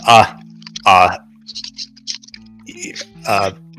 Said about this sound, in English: somebody typing? Okay.